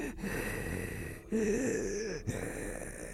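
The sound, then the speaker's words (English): A voice imitating raspy, struggling breathing: strained, airy breaths with a voiced rasping stretch in the middle and a brief catching gasp near the end. “Think raspy, struggling to breathe. He mimicked it for me.”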